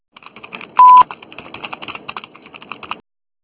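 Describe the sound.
Telephone tones ahead of a voicemail message: a rapid run of many short keypad-style beeps, with one louder, steady beep held briefly early on, all without any voice.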